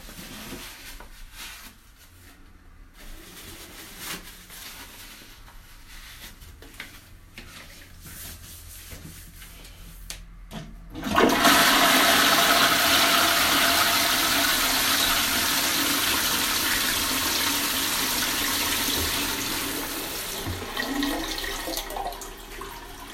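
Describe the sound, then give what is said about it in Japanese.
A toilet flushing: after quiet shuffling, a loud sudden rush of water starts midway and settles into a steady rushing hiss that slowly tapers off. “無事に朝のうんち出てくれたので流します。”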